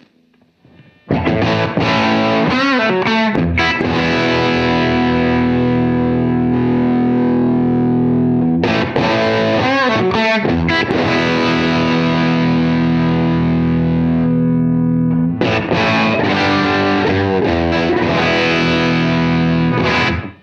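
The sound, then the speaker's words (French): Electric guitar played through an amplifier with a pedalboard boost, first off and then switched on. Three loud, distorted strummed chords each ring out for several seconds with a chorus-like shimmer, separated by brief breaks. “en activant le boost qui est sur la fonction Alt qui est ici, et on l'active dans cette configuration de pédale en appuyant ici sur le bouton. Je vous fais écouter les deux sons.”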